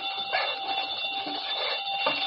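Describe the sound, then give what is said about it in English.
A burglar alarm wired to a safe rings in one continuous, shrill, steady electronic tone that holds at an even loudness for the whole stretch, with no voices. “Safe connected with burglar alarm.”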